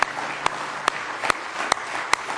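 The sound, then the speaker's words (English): A church audience claps in praise during a service. A steady wash of applause carries about six sharper, louder claps landing on an even beat. “Let's give him a real good hand clap of praise tonight if you love him.”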